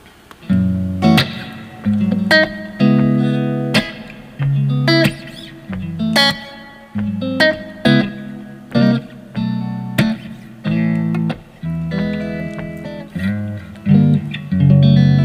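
A slow acoustic guitar song played with the fingers and no pick gives soft plucked chords and single notes, each ringing out and fading before the next, in an unhurried, even rhythm with no voices.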